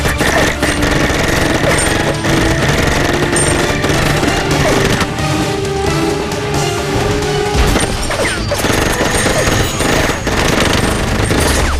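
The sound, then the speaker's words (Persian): Gunfire roars loud and dense throughout, rapid overlapping shots blending into continuous bursts with sharp crashing impacts and no pause across the whole stretch. “برای سرمونه شلیک کن بزنش.”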